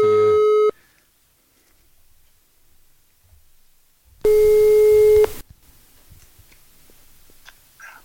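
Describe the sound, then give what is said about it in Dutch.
Telephone ringback tone as a call is placed and rings out: two steady, loud, buzzing tone bursts about four seconds apart, separated by near silence with a few faint low knocks. “Kunnen we niet gewoon even bellen? ja, we gaan hem even proberen te bellen.”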